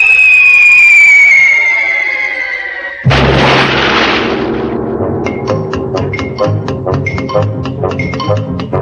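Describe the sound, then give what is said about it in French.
A bomb dropped from a bomber whistles as it falls, the loud tone sliding steadily downward for about three seconds. A heavy explosion follows, then rumbling and scattered crackling debris that slowly fades. “Pilote à bombardier. Bombe larguée.”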